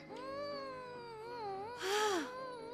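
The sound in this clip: A child cries and whines over a blanket at home. The high, wavering whimpers are quiet, with a louder, falling cry near the end.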